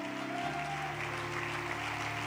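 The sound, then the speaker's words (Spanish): Congregation applause at a church service, a dense steady clatter of many hands clapping, loud and continuous throughout, with sustained tones from instruments or voices beneath it. “Dele un aplauso a Él, el que lo cree.”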